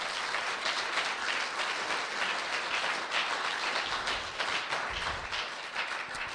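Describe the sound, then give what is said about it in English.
An audience claps at a revival church service, producing a dense, even crackle of many hands that carries on steadily, fairly faint, with no speech. “Give the Lord a clap offering right now.”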